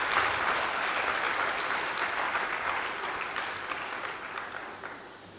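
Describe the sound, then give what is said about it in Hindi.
Enthusiastic applause from a spiritual gathering, a dense wash of many hands clapping steadily, easing slightly toward the end. “अपने उस भाग्य के लिए जोरदार तालियों से”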